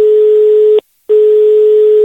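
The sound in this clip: A telephone rings as a neighbour calls: a steady electronic tone, loud and even, sounds in two bursts separated by a brief pause, with no voices.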